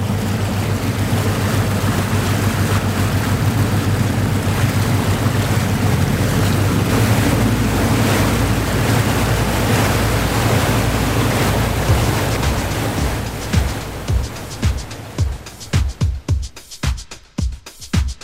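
A boat casting off on the water in summer near Tampere, Finland: a loud, steady low rumble of wind and wash from the waves, breaking near the end into irregular gusty buffeting thumps, with no talking.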